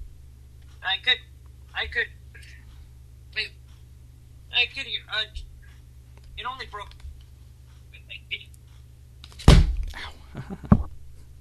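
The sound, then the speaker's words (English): A phone ringtone sounds in short, repeated tonal bursts with pauses between, followed by a couple of loud thumps near the end. “Sorry, that was my phone.”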